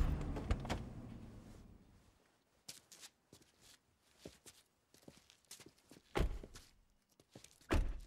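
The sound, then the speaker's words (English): Clicks and thuds as a sedan's trunk is opened, a few sharp knocks spread out over the stretch, with soft rustling between them and two louder hits toward the end. “Joe opens the trunk.”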